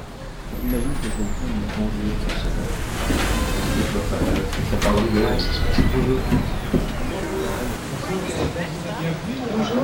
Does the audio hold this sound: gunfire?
no